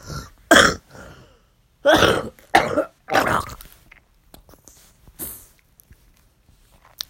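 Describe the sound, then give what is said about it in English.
An exhausted person has a coughing fit: several harsh, throaty bursts of coughing with short gaps between them, loud at first and then fainter, ending in a few small throat sounds. No talking is heard. “I apologize for the coughing attack, but this is what you get after you're so exhausted”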